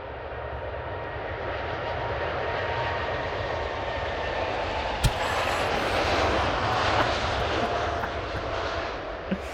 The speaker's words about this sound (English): Here we go. This is the takeoff, oh, baby.